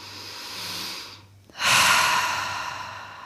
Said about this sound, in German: wenn du magst, durch die Nase mal tief einatmen und durch geöffnete Lippen mal Spannung ausatmen